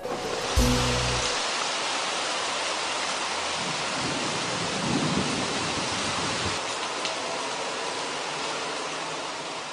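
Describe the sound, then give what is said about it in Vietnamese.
Steady rain pouring down, a dense, even hiss that holds at one level from start to finish with no voices. “Trời lại đổ mưa.”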